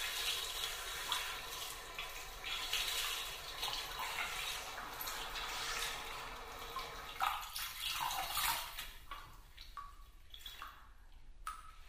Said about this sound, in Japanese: え？髪洗ってくれるの？